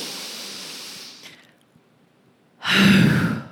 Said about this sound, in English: deep breath in and an exhale. Let's do that together.